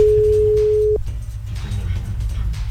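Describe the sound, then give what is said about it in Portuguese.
A telephone ringback tone sounds while a call is placed, a single steady electronic tone held for about a second before it cuts off, leaving a low background hum. “Será que ela vai atender ou tá fazendo almoço? Chamando.”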